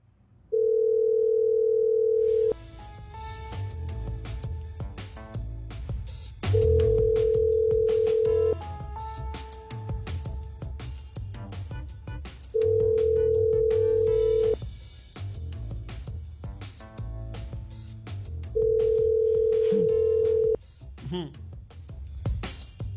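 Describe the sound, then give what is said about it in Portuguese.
The ringing tone of an outgoing telephone call: four long, steady mid-pitched tones, each about two seconds, repeating at even intervals over constant background noise and scattered clicks. “Vamos fazer um contato pra você agora, tá? Vamos lá. Chamando, tá.”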